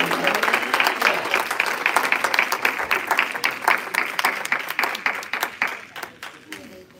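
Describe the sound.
A church audience applauds to welcome a preacher on a Sunday morning. The clapping is crisp and rhythmic with voices mixed in, and it thins out and fades toward the end.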